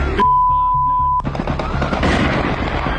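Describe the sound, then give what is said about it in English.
Recorded audio of a Russian strike on a shopping mall in Kryvyi Rih, Ukraine: a steady high beep-like tone stops abruptly, then loud bursts of blasts and crackling, gunfire-like noise follow. “And internationally, Russia launched another strike on Ukraine. Here's some of the audio of that.”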